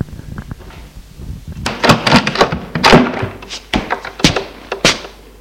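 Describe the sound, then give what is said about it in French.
A door is opened, giving a loose series of sharp knocks, thuds and clatters of varying loudness, with several bright, hard impacts through the middle. “Il ouvre la porte.”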